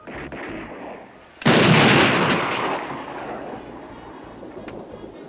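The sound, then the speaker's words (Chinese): A single booming large-caliber handgun shot fired during a police academy shooting lesson in the comedy film Police Academy. It bursts suddenly after a quieter stretch of low background noise, then trails off in a long rumbling decay. “射击课上，学校发的枪他觉得不过瘾，用自己大口径的手枪练习，把警官都给整懵了。”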